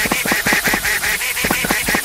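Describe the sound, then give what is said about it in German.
A duck quacking in a video game: a rapid, regular run of many nasal, honk-like calls at a steady, fairly loud level, with no voices. “Komische Ente.”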